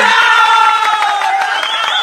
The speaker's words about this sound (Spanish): ¿Dónde están los aplausos? ¡Bravo, bravo!